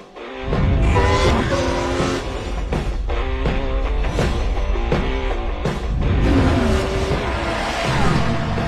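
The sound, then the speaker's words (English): Car wheels rush past with squealing tires and roaring engines in a loud, continuous wash of sound, with sharp surges and tonal whines throughout. “Oh, it's like wheels going by.”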